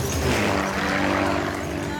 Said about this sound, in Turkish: Tek ulaşım yolu Bush uçakları tarafından sağlanmaktadır.